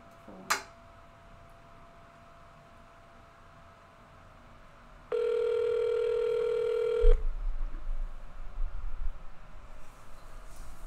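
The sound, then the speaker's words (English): A telephone tone sounds as a call is placed: a sharp click near the start, then a single steady electronic beep lasting about two seconds, followed by a low rumbling hum. “I'm just gonna call the caller.”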